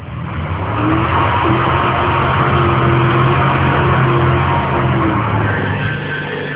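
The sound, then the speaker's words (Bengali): A car engine swells over the first second, then holds a loud, steady rumbling drone with a faint tonal hum running through it until the end. “Driver please please গাড়ি start দেন, একটু তাড়াতাড়ি যাই। হ্যাঁ, গাড়িটা একটু তাড়াতাড়ি চালান।”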